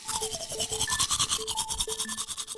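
Teeth being brushed with a toothbrush: quick, steady scrubbing strokes repeat in an even rhythm through the whole stretch, fairly loud and with no voices.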